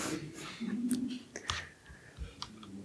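A few sharp, irregular key presses on a computer keyboard while undoing code changes in a version-control tool; the short clicks come in quick, uneven bursts at a moderate level.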